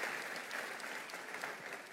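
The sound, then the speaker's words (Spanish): Applause from a church audience after a scripture reading, a dense, steady patter of many hands clapping at even loudness throughout, with no distinct voices above it. “Un aplauso a la palabra del Señor.”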